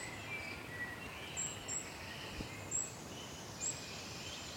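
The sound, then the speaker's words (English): A wood warbler sings in the distance in Brecon Beacons woodland in the morning: faint, thin, high whistled notes spaced apart over a quiet, hissy background. “Oh yeah, there's a wood warbler in here. Thought there might be.”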